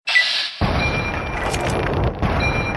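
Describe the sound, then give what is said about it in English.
One loud, sudden gunshot from Lincoln's repeater rifle in a video game, with a sustained rumbling boom that fades slowly. “I got a 95% headshot with Lincoln's repeater. This should do it.”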